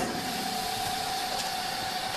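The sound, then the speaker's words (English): A chamber vacuum sealer runs with its lid closed, giving a steady, unbroken motor drone with a constant mid-pitched hum on top. No talking is heard. “I think everybody keeps their chamber vacuum sealer in their entry closet. I'll close the lid. It's going to start doing its thing. It takes about a minute. Here we go.”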